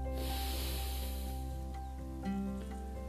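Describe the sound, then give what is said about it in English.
A deep, slow exhale during a guided meditation: a long, breathy hiss that fades over a few seconds beneath steady, sustained musical tones. “So smile and take a deep breath in. And with a broader smile, breathe out.”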